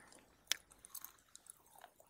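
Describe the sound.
Quiet chewing of butter-grilled squid: one sharp crunchy bite early on, then a few softer, moist chews and small crunches, heard alone without talk.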